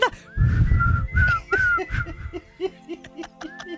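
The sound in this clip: A person whistles a rock song melody, a wavering mid-high tone moving in short sliding phrases, interrupted by bursts of laughter and giggling.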